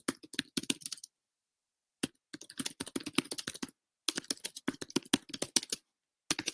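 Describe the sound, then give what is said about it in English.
Rapid clicking of keys as someone types a question on a computer keyboard, with several dense bursts of keystrokes separated by short pauses. “I do have the option to type in a question right here. So I'm going to type in a question.”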